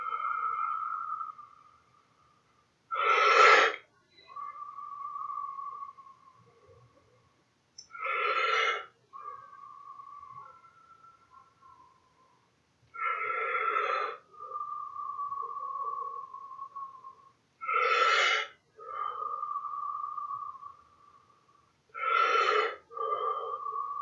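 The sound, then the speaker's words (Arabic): Wim Hof breathing exercise done for focus, with forceful inhalations through the mouth: five sharp, evenly spaced breaths, each a short rush of air, separated by a steady humming tone. “أربعين مرة اثنين شهيق من الفم زفير”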